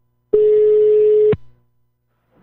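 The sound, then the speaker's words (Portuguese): A single steady telephone ringing tone sounds while a call is being placed. It is a mid-pitched tone lasting about one second, loud and alone, followed by silence. “Eu vou ligar pra Márcia Firmino Dantas.”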